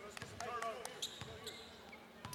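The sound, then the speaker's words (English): Basketball dribbled during a high school game, with several sharp bounces on the court. Voices and crowd noise run underneath. “Dunn across the timeline, left-handed dribble in front of me.”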